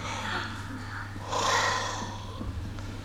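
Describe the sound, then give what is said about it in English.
Someone breathes out onto the inside of a spoon: a soft, airy exhale swells for under a second over faint breath noise and a steady low hum. “breathe in, and then breathe out onto the inside of the spoon”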